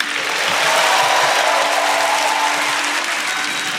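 A crowd at Liberty University applauds Donald Trump as he is welcomed back on stage, a loud, dense, unbroken roar of clapping lasting nearly four seconds.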